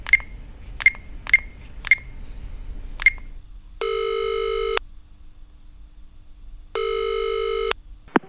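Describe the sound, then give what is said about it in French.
A telephone call being placed: five quick key presses, then two steady ringing tones of about a second each separated by a pause, and a final short click at the end. “Il téléphone à un agent de casting, Daniel Béat, pour trouver 5 comédiens.”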